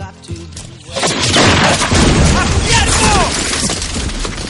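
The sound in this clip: Gunfire breaks out in a film battle scene as a dense, loud barrage of shots and booming blasts. It starts after a quieter opening second and stays intense throughout.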